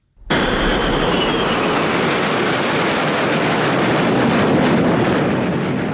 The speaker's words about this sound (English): there were several flyovers, this one included, ahead of this spectacular race now underway